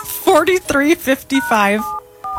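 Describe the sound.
Touch-tone keypad beeps as a telephone number is dialed: a few short, steady electronic tones come right after a person talking.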